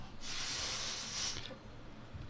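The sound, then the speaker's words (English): A man blows steadily into a breathalyzer, a bright, breathy hiss lasting over a second that cuts off abruptly and leaves faint low background noise. “So he's trying to beat the breathalyzer, and he. Give us a blow.”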